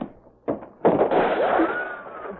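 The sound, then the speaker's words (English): Long-range rifle shots: a short sharp pop, then a louder crack whose ringing, whining tail lingers and slowly fades. “Somebody with a long-range rifle trying to get into the act.”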